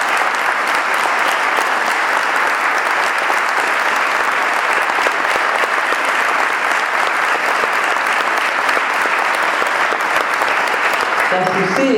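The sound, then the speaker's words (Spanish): Loud, steady audience applause at a commemorative talk about the mothers who first gathered at Plaza de Mayo; dense clapping continues unbroken for the whole clip, with a voice briefly rising at the very end. “Un aplauso fuerte para mí.”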